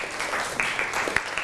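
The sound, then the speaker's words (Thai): Students clapping for a classmate in a school classroom: a brief burst of scattered, overlapping handclaps at moderate level, lasting about a second and a half. “ปรบมือให้กับเพื่อนหน่อยครับ”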